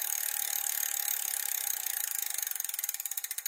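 A spinning prize wheel clicks against its pointer in a fast, even ratchet that gradually slows, the clicks spreading farther apart toward the end; fairly faint, with no voices.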